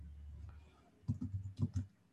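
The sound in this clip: Typing on a computer keyboard: a short, faint run of a few light, irregular key clicks over a low, quiet background hum, with no voices.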